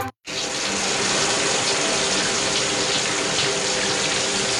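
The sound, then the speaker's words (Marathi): Water runs continuously as it overflows from a tank, a steady and fairly loud gushing that starts after a brief silence and holds evenly to the end, with no voices. “Watchman watchman, अरे अर्धा तास झाला पाणी वाहत आहे, टाकी बंद कर.”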